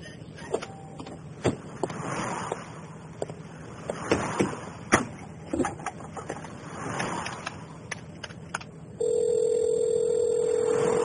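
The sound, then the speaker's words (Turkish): Dialing a payphone in a roadside phone booth: scattered clicks, knocks and rattles of handset and dial, then a steady telephone tone sets in near the end and holds unbroken. “Şu yolun kenarındaki telefon kulübesinden arayıp paraları isteyeyim.”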